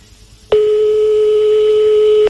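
Ringing tone heard on a phone call: a single loud, steady, mid-pitched beep lasting almost two seconds that starts and stops sharply, with a soft low rhythmic background beneath.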